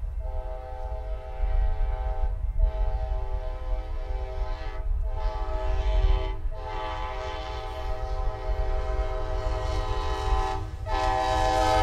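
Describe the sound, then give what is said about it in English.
Horn of locomotive 94 on a train sounding several long, steady blasts with brief breaks between them, loud over a low rolling rail rumble. “Again, a nice little horn on 94. Unfortunately, it doesn't sound like this anymore, but so you gotta enjoy it while you can.”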